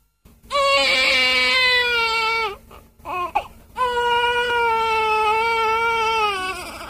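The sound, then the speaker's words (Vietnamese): A newborn baby crying in long, high, wailing bursts, a shorter whimpering catch of breath between two sustained cries that trail off at the end. “Cũng trong cái gian buồng trước kia Pierre ra đời, giờ đây im ắng, chỉ thỉnh thoảng có tiếng oe oe của một đứa bé mới lọt lòng.”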